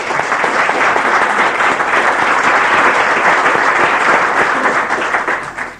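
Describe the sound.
Applause fills a legislative chamber as members welcome a guest. The clapping is loud, dense and sustained, with no break, and thins slightly only in the final moment.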